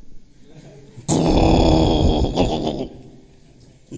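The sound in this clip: A voice imitates a sleeping dog with a loud, rough, grunting growl that bursts in abruptly and lasts under two seconds before stopping.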